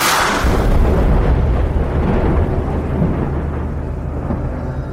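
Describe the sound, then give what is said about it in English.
Thunder rumbles from a thunderstorm pummeling a field of crops beside a dirt road: a loud, steady, broad roar that holds for the whole stretch and eases only slightly toward the end. “He watched the thunderstorm pummel the field of crops directly across the dirt road from him.”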